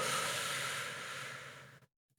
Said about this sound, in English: Take a deep breath in